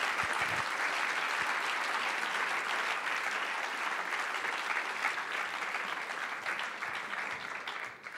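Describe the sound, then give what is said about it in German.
Audience applause at a literary evening reading, a dense, even wash of many hands clapping that holds steady for about eight seconds before tapering slightly at the end. “Großer Applaus in Abwesenheit für Sharon Dodua Otto und Adas Raum.”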